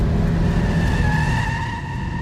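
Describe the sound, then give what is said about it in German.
Tires of a dark green Jaguar screech as the car skids in a crash, a loud, sustained squeal with steady tones over rough road and engine noise, easing slightly toward the end; no clear impact is heard. “Das Auto überschlägt sich.”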